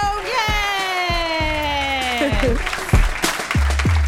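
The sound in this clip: An audience applauds a comedian at the end of a stand-up set. The clapping runs under gliding, descending musical tones and is punctuated by several heavy low drum hits.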